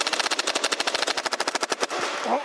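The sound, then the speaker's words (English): A toy Nerf gun fires a rapid automatic burst of many sharp, evenly spaced clicking shots, loud and alone, ending abruptly after about two seconds. “Johnson then turned his engineering eye on the Nerf gun. Shoot.”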